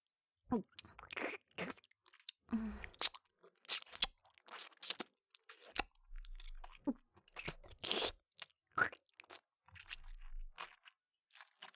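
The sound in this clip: Crunchy chewing of food: many quiet, crisp crunches and bites in irregular bursts, separated by brief silences.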